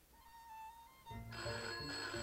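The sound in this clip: A telephone bell rings in a country house, bursting in loud and shrill after a faint, quiet stretch of soft tones, then keeping up steady repeated rings with short breaks.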